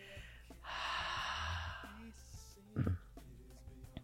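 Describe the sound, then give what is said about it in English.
A slow, gentle exhale during guided relaxation breathing: a soft, airy breath of about a second and a half, fairly quiet, with brief low voice sounds around it. “take a nice gentle breath into your heart center, connecting to your capacity to exchange and receive with one another, and then exhale out.”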